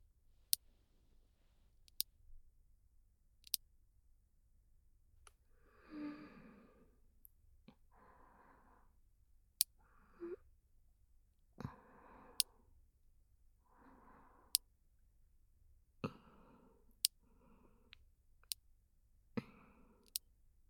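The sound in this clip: Scissors trim hair to length during a haircut, giving many crisp, quiet snips spaced irregularly, with soft breathy sounds between them.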